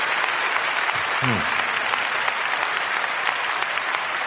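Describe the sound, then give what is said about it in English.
An audience at a church service applauds in praise of God after a miracle, a thick, sustained wash of clapping at steady loudness, with a brief voice rising above it early on. “Let's give the Lord a big round of applause.”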